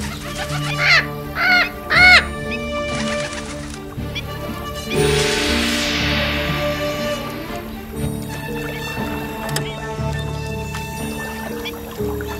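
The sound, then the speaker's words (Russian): Bird calling with three loud, harsh, cawing cries close together near the start, then a quieter stretch of steady tonal background. “Что это было? Я никогда не видел, чтобы птица вела себя так.”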